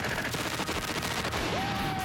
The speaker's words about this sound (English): This is a Russian machine gun. Fire and hold.